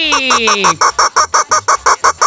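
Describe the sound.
Goose honking sound effect: an opening drawn-out honk with falling pitch, then a rapid, evenly spaced series of loud, nasal honks with no voices.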